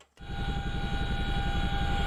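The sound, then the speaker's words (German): A helicopter flies over the Greek-Turkish border, its engine a steady droning hum over a fast, low, rhythmic thudding of rotor blades that runs without a break. “Von oben aus dem Hubschrauber herab erkundeten die EU-Spitze und der griechische Regierungschef Kyriakos Mitsotakis”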